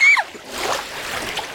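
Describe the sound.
Water splashes and churns as someone is ducked under, a brief high cry at the start giving way to a steady, rough wash of splashing that holds at an even level to the end.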